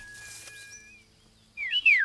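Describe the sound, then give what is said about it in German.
Birds chirping as the parent birds return to their nest: thin, high whistled tones at first, then a louder burst of bright, quick chirps at the end. “Nulli, schau doch, die Vogelmama und auch der Vogelpapa, sie sind wieder zurückgekommen.”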